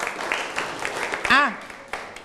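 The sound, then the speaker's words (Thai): A class of students claps for a classmate, scattered, fairly light claps mixed with a voice speaking briefly. “นั่งลงครับปรบมือให้กับเพื่อนหน่อยครับ”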